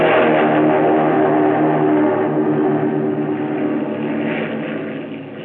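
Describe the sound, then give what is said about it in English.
A Japanese Zero fighter plane throttles up and takes off down a runway, its propeller engine a loud, steady roar that eases slightly toward the end. “He gunned her. And that first Japanese Zero to be flown by an American sped down the runway and took the air.”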